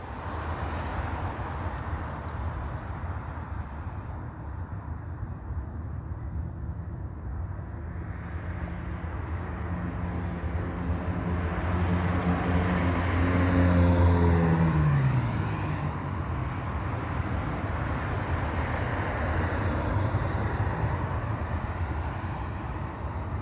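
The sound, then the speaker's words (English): A city bus drives past on Holt Boulevard, heading westbound. Its engine drone swells out of steady traffic noise toward the middle, with tonal whine that dips in pitch as it goes by, then eases back into the general street rumble. “OmniTrans, bus number 1268, crossing path, driving westbound on Holt Boulevard.”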